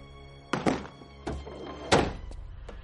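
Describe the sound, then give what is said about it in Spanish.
The back door of a car loaded with cured sausages is opened, giving a few dull, heavy thumps spaced about a second apart, loud and alone. “Al abrir la puerta de atrás se ven los pies de un cuerpo.”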